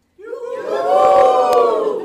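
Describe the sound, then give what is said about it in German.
An audience cheers on cue during a live event, a loud, sustained roar of many voices that starts abruptly and holds steady to the end. “Ich zähle jetzt bis drei und dann jubeln Sie mal, okay?”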